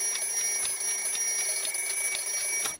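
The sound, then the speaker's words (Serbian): An alarm clock rings with a rapid, continuous high-pitched metallic trill that pulses evenly throughout, then cuts off abruptly just before the end. “Naši budilnik.”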